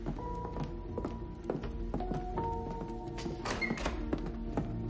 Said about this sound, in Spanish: cierra la puerta de la calle.